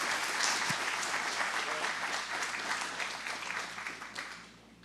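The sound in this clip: Audience applause welcomes a speaker: loud, dense clapping from many hands that holds steady, then thins and fades away at the end.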